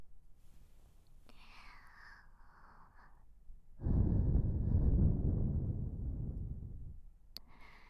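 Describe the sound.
Air is blown gently into the ear during ear cleaning, making a soft, breathy rush of about three seconds. It follows a faint whispering voice and ends with a light click.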